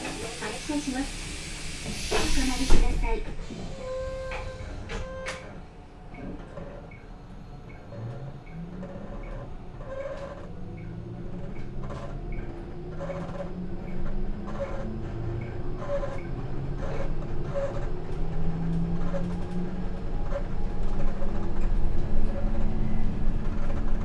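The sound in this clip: Train doors close with a loud brief hiss and clunk, then an electric train departs toward its terminal stop at Toranomon Hills, its motor whine climbing in pitch over repeated wheel ticks and growing louder.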